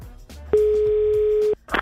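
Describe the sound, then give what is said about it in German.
Ringback tone heard while calling home on a phone: a single steady, loud, mid-pitched tone lasting about one second, with only faint background noise before and after it. “sollen wir mal zu Hause anrufen?”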